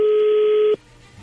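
A telephone line tone sounds as a call is placed: one steady mid-pitched tone holds for under a second, then cuts off abruptly into near silence.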